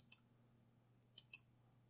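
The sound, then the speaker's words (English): Buttons clicking on a handheld gaming PC with a Z1 Extreme chip: three crisp, sharp clicks, one alone and then a quick pair about a second later, over a low, steady hum. “I'm actually sitting here clicking through it.”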